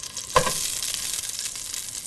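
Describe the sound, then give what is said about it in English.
Smashed ginger frying in a little oil in a hot pan with fatty pork: a short burst of crackle as it goes in, then a continuous bright sizzle with fine popping that holds steady. “Now, you turn on the stove. The pork is fatty, so you don't need much oil, but you do need oil to, smooth the pan.”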